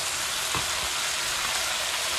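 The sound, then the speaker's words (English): Food frying in a pan as it is stirred and turned, with steam rising as moisture cooks out: a steady, even sizzling hiss with a few faint, low bumps. “We are getting a lot of steam from all the moisture getting cooked out. But just keep turning it.”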